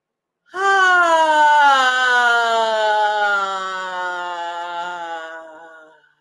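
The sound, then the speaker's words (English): A deep breath is let out as a long voiced moan, one sustained tone that drifts slowly lower in pitch and fades away over about five seconds. “just deep breath and let it out with some sound or whatever you got down there.”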